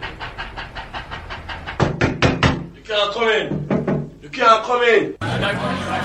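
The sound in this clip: Knuckles rap on a door, first a quick run of light, evenly spaced knocks, then a few louder, harder knocks, after which voices start talking.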